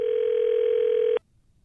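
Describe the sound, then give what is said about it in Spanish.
A telephone dial tone sounds while a call to the White House is being placed: a single steady, unbroken tone that cuts off abruptly after about a second, with no voices. “ahí te va, ¿eh? Estamos llamando a la Casa Blanca.”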